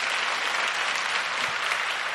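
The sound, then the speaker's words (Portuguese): A church audience claps for Jesus Christ during a worship service. The applause is a dense, steady wash of many hands with no break, heard alone without talk. “Dá uma salva de palmas para nosso Senhor Jesus Cristo.”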